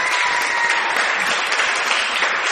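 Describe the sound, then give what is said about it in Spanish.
Audience applause for a guest on a show, a dense, steady ovation of many hands clapping, loud and unbroken throughout. “vamos a ovacionar, ya que estamos... Entusiastas. A Patricio Barton, por favor.”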